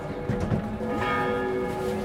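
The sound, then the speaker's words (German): Church bells of a large city church ring out for eight o'clock in the evening: a steady, sustained peal of overlapping, resonant tones, holding at an even loudness throughout with no voices. “Den Feierabend leitet das 8 Uhr Läuten von der Lorenzkirche ein.”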